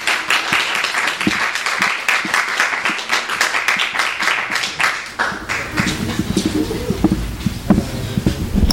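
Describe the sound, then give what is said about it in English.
Audience applause at a graduate writing students' reading: many quick, dense claps at steady loudness for about five seconds, then the clapping thins out and grows quieter. “Let's all give a hand for Danielle.”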